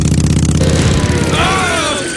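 Revving engine of a makeshift motor with a tomato can as its carburetor. A rapid, loud throbbing pulse gives way to whining tones that climb in pitch.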